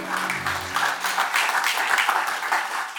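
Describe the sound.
Audience applause welcoming a speaker in Decatur: continuous, even clapping from many hands that holds at a steady level, with a low tone fading out in the first moment.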